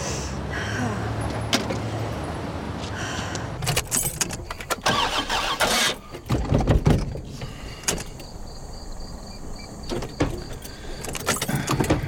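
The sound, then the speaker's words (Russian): An old car starts up and drives away, its engine cranking and catching among uneven bursts of mechanical clatter and rushing noise at moderate loudness, with no talk. “выезжает на своей старой машине”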